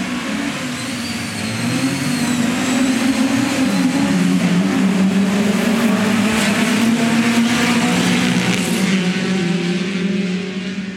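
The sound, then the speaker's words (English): Many Ford Cortina and Consul Cortina race cars pulling away from the start line at a race meeting: a dense, loud, sustained roar of engines that swells quickly and holds steady, with no talk. “And that is the sound of many Ford Cortinas and console Cortinas making their way for their first lap.”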